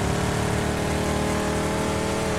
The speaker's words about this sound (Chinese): 我觉得这个车的噪音好大，我听不到人说话了。这是跑车吗？所谓的轿跑。